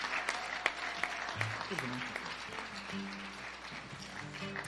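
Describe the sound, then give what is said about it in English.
Applause from a church audience welcoming founding members to the stage at a 50th anniversary service: sustained, fairly soft clapping with sharper claps standing out and voices calling out over it. “Put your hands together. Welcome them to the stage this morning.”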